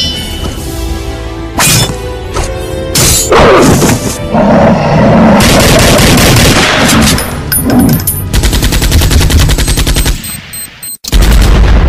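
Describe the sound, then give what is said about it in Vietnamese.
Machine-gun fire from a sound effect in a wartime audio drama: many loud, rapid bursts and single gunshots mixed with crashes and heavy thuds. The firing cuts out briefly near the end, then starts again. No voices. “bên tai còn nghe tiếng súng rền vang”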